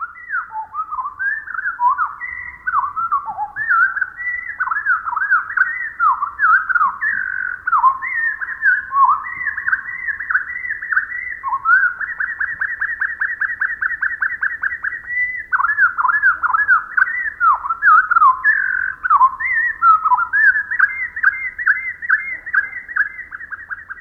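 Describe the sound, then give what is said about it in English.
Pacific wren song slowed to quarter speed, turning the rapid song into a long stream of clear whistled notes, slurs and drawn-out trills. The notes are steady and bright and continue unbroken for over twenty seconds. “naturalist Rosemary Jealous writes, even the most extensive bird song seems so brief to us. Let's listen again, but this time with the song slowed down to 1/4 speed.”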